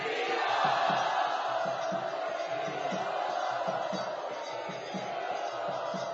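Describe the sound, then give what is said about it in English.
Crowd loudly chanting in unison as a devotional welcome for devotees, a dense, sustained mass of voices carried on a steady, repeating rhythmic pulse throughout. “So all of us, let us with great enthusiasm, great love, and great admiration for these wonderful devotees welcome them with great warm hearts by very loudly chanting.”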